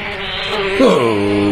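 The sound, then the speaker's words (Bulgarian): A cockchafer, or May beetle, buzzes loudly and continuously, its droning hum wavering and briefly dipping in pitch midway before steadying again. “То било майски бръмба. И какво си се разбръмчал по никое време, драги?”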